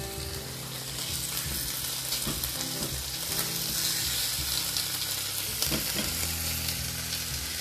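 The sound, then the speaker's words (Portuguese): An egg frying in a pan makes a steady, dense sizzle and crackle that stays even and continuous from start to finish, with no talk. “Agora eu vou fritar um ovo.”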